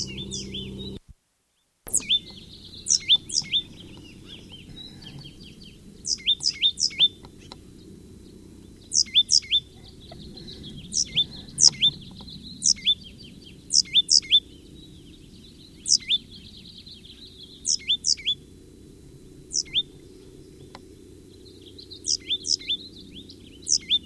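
Birds call in a pasture, giving many short, high-pitched chirps in repeated quick clusters over a faint, steady background hum.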